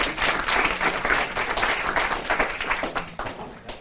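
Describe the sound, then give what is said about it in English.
An audience applauds a stage assistant with steady, dense clapping that holds for nearly four seconds with no talk over it. “Let's hear it for my lovely assistant.”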